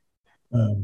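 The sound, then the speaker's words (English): Dogs barking at a knock on the door: one loud, deep, full-toned bark rings out briefly after a faint short sound, with no talk. “Someone just knocked on the door, and the dogs are barking.”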